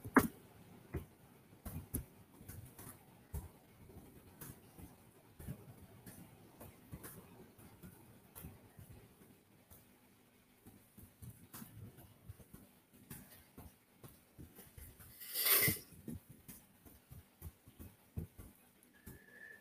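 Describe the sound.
Fingers typing on a keyboard while a social media post with hashtags is composed: many soft, irregular clicks and taps in an uneven stream, with one brief louder burst near the end.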